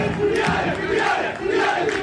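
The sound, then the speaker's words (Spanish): A stadium crowd roars in celebration of a headed goal in a football match involving Olimpia and Nacional: dense, continuous cheering and shouting that stays loud throughout with no pause. “Ahí está, señoras y señores, el festejo del público. Pero qué golazo saltó más que todos dentro del área grande.”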